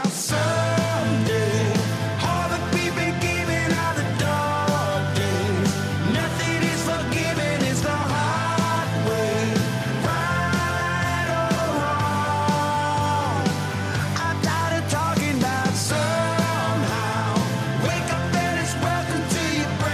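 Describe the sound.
A loud, continuous rock track with country leanings: full band and sung vocals run steadily throughout without a break.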